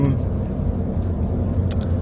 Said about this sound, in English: Anyway, I have to talk out loud because I'm driving.